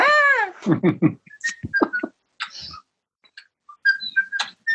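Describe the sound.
A person whistles a short tune of high, clear notes in quick bursts with brief pauses, after a voiced sound at the start.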